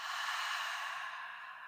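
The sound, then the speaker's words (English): A single steady breath exhaled out through the open mouth during a guided breathing exercise: a soft, airy rush lasting under two seconds that thins slightly toward the end, with no talking over it. “opening the mouth and you're going to take an inhale. Exhale out the mouth. Could do that again. Inhale. Exhale.”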